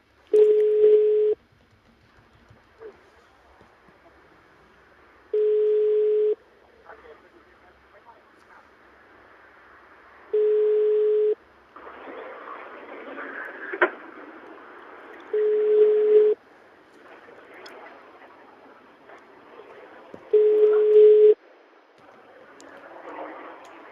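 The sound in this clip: Ringback tone of an unanswered telephone call: five steady mid-pitched beeps, evenly spaced about five seconds apart, with faint background noise and murmuring between them.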